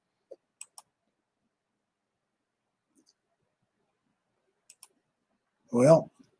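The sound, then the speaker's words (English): Mouse clicks on a computer's share button: two pairs of quiet, sharp clicks separated by a few seconds of silence, then a short burst of voice at the end. “So if I go ahead and just click the share button.”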